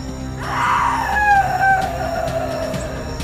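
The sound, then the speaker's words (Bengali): A woman's loud, anguished scream fills a room, a wavering drawn-out cry that sinks lower in pitch as it trails off, over a steady low background drone. “এরপর এক প্রবল নারী কণ্ঠের আর্তনাদে পুরো ঘরটা ভরে গেল।”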